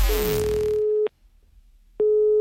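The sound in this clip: Telephone ringback tone on an outgoing prank call: a steady mid-pitched tone that stops, falls silent for about a second, then sounds again. A fading noise overlaps the first tone.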